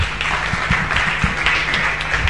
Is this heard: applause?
yes